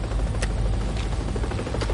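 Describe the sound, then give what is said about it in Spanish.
A helicopter flying over mountains gives off a steady, dense rotor-and-engine roar, with faint rhythmic thumps running through it. “Un helicóptero sobrevuela las montañas.”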